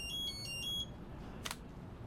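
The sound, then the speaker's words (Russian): A judge's mobile phone ringing: a fairly faint run of a few short, high electronic beeps in quick succession, followed by a brief soft hiss. “Судье звонит мобильный.”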